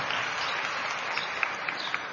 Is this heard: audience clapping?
yes